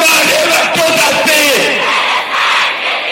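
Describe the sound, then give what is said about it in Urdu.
Thousands of protesters, men, women and children, chanting anti-Israel and anti-US slogans in Islamabad while demanding an end to attacks on Gaza: a loud, dense mass of voices shouting in unison, sustained without a break. “یہاں اسلام آباد میں ہزاروں پاکستانی مرد، خواتین اور حتیٰ کے بچے بھی اسرائیل مرد آباد اور امریکہ مرد آباد کے نعرے لگاتے ہوئے غزے پر صہیونی حملوں کے فوری خاتمے کا مطالبہ کر رہے ہیں۔”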